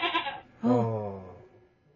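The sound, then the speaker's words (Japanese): Goats bleating in a video game with large and small goats: a short, higher-pitched bleat, then a louder, longer, lower bleat that wavers and fades. “大きいヤギ、小さいヤギ、小ヤギですかね、います。ヤギを見ると画面の上の方に避難をしていくといった あ ヤギが移動するといったゲーム”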